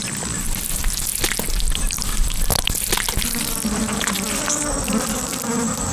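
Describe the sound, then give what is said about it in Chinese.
Dense, continuous buzzing of flying insects, dung beetles swarming around dung, a steady droning hum with many overlapping wingbeats holding an even loudness throughout, with no voices. “蜣螂就像苍蝇一样被粪便深深吸引。它们在粪便里生活”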